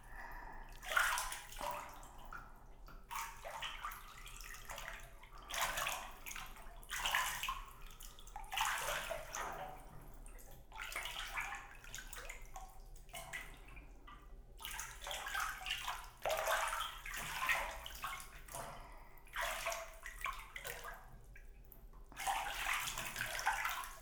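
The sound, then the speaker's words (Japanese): Water splashes and trickles as a hair fringe is wetted and washed. Quiet pours and sloshes come in many uneven bursts separated by short lulls. “前髪の方を濡らしていきますので”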